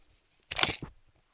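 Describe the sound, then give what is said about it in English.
A measuring tape being handled: a short, crunchy rustling burst, then a second brief rasp right after it, and quiet on either side. “hold on, I'm getting my measuring tape. Hold on, I gotta set this down.”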